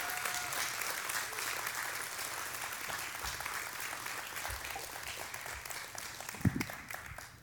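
Audience applause welcomes two guests onto the platform at a Gold Coast event: steady, dense clapping from a crowd throughout, with a brief louder thump near the end.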